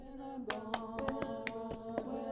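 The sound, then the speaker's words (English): Cupped hand claps at a women's group rehearsal, recorded with the microphone set on the floor: a series of hollow, sharp claps at an uneven pace over a steady held tone. “That's me doing the cup hand clap thing.”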